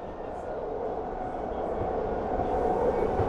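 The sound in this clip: A train charging into a tunnel on a journey toward Liverpool gives a dense, steady rumble and rattle that grows a little louder toward the end.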